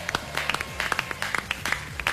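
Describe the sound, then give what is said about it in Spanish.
A single person clapping alone, giving irregular sharp hand claps over a busy background of talk and noise during a radio-style show opening; the claps are moderately loud and uneven in rhythm. “Como siempre, el único aplauso soy yo.”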